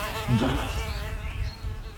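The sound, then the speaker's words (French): A housefly buzzes faintly and continuously for about two seconds, its drone wavering slightly in pitch and loudness. “Ah si, putain, c'est une mouche.”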